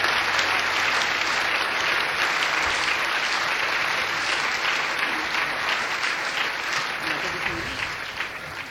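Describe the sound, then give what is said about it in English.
Audience applause welcomes musician Bhajan Sopori at an afternoon performance: dense, steady clapping from a crowd that holds at an even level throughout and thins slightly toward the end. “So again, please give a big hand and a big welcome to Bhajan Supori on this beautiful afternoon.”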